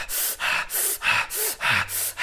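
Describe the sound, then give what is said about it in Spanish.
Rapid, forceful breath-of-fire breathing exercise: a quick run of sharp, evenly paced breaths, each a loud hissing puff of air, repeating without pause and with no talk. “Esto es la respiración de fuego.”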